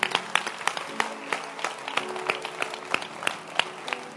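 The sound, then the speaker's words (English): Audience clapping hands for a woman during a Christian talk: a steady patter of many scattered claps at moderate loudness, with a faint tonal hum running underneath. “Can you clap your hands for this girl?”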